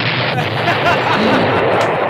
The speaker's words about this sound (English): you might want to turn this down, Rob, because here it comes. The car's coming around the corner. There he goes.